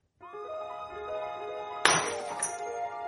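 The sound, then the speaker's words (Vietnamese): Glass cups falling onto a cold floor: a sharp shattering crash, then a second smaller clink, over soft sustained music. “Tiếng ly tách rơi dở trên nền nhà lạnh tanh”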